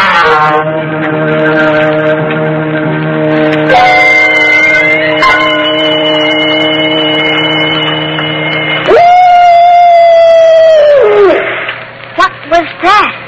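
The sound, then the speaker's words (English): An eerie howl-like effect stands for a wolf's soul passing by: a loud, sustained, wavering tone that drops away at its end. Several seconds of steady organ-like tones come before it, and a few short chirping notes follow. “was merely the soul of a wolf passing by the Purgatorium”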